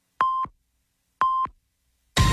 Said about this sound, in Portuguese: Atenção para o top de 5 segundos para o encerramento da rede.